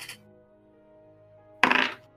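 Dice clattering onto a table during a tabletop role-playing game: a short burst of bright clicks and rattles lasting under half a second, preceded by a faint tick and set over a low steady hum.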